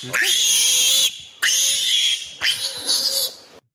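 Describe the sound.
Piglets squeal in three long, loud, shrill bursts separated by brief gaps. The last burst breaks into shorter squeals before it stops.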